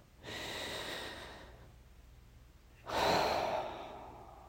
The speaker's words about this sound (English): Let's take another deep breath.